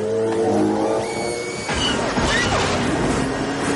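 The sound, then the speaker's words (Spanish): Sci-fi speeder bikes roar through forest vegetation in a chase, their engines giving a loud, continuous, rushing whine with a sharp change in tone partway through. “Pasan junto a dos soldados imperiales escondidos entre la vegetación y montados en motoyet Los soldados persiguen a Luke y Leia.”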